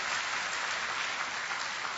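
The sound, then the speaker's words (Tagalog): A church audience claps in praise to the Lord, a continuous, even patter of many hands at moderate loudness with no speech over it. “So, palakpakan natin ang Panginoon sa kanyang kabutihan sa atin.”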